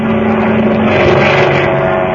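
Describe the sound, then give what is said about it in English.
A seaplane's engine roars steadily during takeoff from water, a loud, unbroken drone with no voices over it. “Remember now, son, pull back on that stick to start the takeoff. You've got to get her up on the step or she won't move.”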